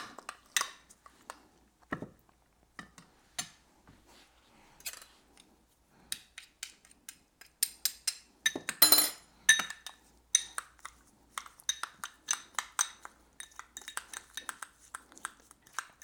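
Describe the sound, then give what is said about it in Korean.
Utensils clink, tap and scrape against a bowl as food is mixed with perilla oil, giving many quiet, irregular clicks and clatters with no talking. “들기름 살짝 넣고 마지막에 다시 넣고 그 다음에 이거를 섞어줍니다.”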